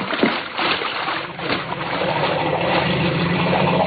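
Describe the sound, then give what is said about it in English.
A boat motor heading back downstream runs as a dense, steady rumbling drone, loud and even from start to finish with no voices over it. “I'll get the motor and head back downstream.”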